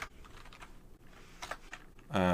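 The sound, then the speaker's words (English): Quick, light clicks of typing on a computer keyboard run in an uneven patter, and a voice begins to speak just at the end. “let me type this into Brian real quick.”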